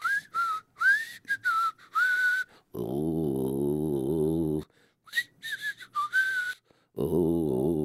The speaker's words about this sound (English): I got my whistle.